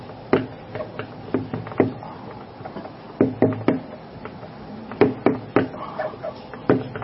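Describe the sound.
A bamboo stick taps out a rhythmic beat: sharp, dry knocks in short clusters with brief pauses between them, repeated steadily and heard alone without talk.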